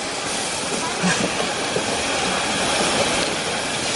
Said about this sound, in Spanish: Sherlock y John suben al tren